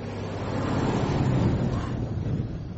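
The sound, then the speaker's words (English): A big truck passes on the road with a deep, broad engine and tire rumble that builds toward the middle and eases slightly at the end, steady and without voices. “One hell of a big truck.”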